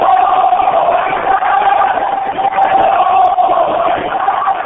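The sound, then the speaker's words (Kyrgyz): Street protest crowd in Tehran chanting "Allahu Akbar" and "death to the dictator", a loud, continuous roar of massed voices in unison that holds steady throughout. “Алар Аллоо Акбарга үн салып диктаторго өлүм деп уран чакырышты.”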